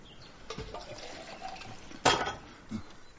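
Water being poured, heard as a few brief splashing, gurgling bursts over a low background hiss, with the loudest splash near the end.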